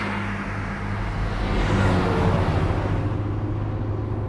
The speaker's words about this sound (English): You mind telling me why you just drove past our villa?